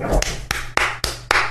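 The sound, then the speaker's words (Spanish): Hand claps answer a call for a big round of applause: five sharp, evenly spaced claps in a slow, steady rhythm over a low, constant hum. “Bueno, un gran aplauso para él.”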